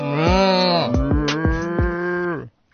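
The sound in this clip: A human voice imitates a cow mooing in one long, low, buzzy tone held for about two and a half seconds before it cuts off sharply. A few soft thumps sound beneath it.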